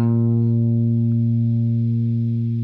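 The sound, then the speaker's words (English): A single B flat note rings out on a guitar as one loud, steady sustained tone with a rich stack of overtones, holding evenly and fading only slightly, with no talk. “here is, once again, the note that I played on the guitar, a single B flat.”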